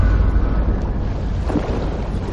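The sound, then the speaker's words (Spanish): Churning, rushing water as a large ocean liner sinks and goes under, a dense, steady low roar of turbulent water with a constant rumble and no voices. “Jack trata de cogerla, pero el remolino creado por el hundimiento arrastra a Rose hacia el fondo”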